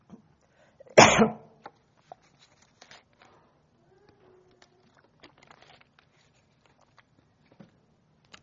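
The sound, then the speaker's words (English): One loud, sharp cough from someone with a tickle in the throat. It stands out against near silence, and only a few faint, scattered ticks follow. “I don't know, I got a tickle in my throat. I'm going to try one more drink.”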